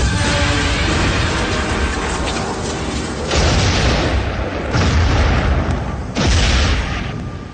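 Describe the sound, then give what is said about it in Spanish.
An anti-aircraft cannon fires at a cloud in the sky in a dramatized war scene. Loud, low rumbling blasts continue throughout, with a few sharper booms breaking through. “llega por fin al cañón antiaéreo, apunta temblando a la nube redonda destacada en el cielo y dispara”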